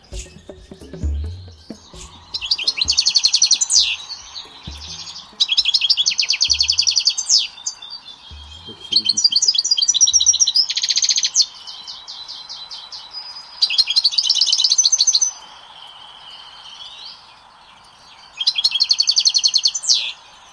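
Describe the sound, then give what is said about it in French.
A caged goldfinch sings in five bright, twittering bursts of rapid high trills and chirps, separated by short pauses, over a steady low hum with a few soft thumps near the start. “Je vous ai enregistré, si vous voulez, le chardonneret de...”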